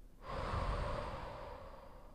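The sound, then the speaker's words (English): A deep, slow breath taken as a relaxation exercise: one long, steady, airy rush of air that holds for about two seconds at an even loudness, with no talk. “We're going to take a deep breath. Exhale.”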